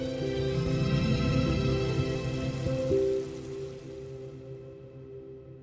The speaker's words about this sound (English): That's not even the sound of real rain. That's the sound of bacon frying.